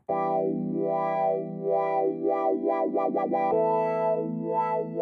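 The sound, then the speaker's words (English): Electronic synth tone warbled by a manually tweaked LFO: loud, wah-like pitch sweeps that wobble slowly, then speed up into rapid, erratic oscillations before an abrupt jump to a higher, slower wobble. “What you're hearing is called an LFO, low frequency oscillator. It's an electronic instrument.”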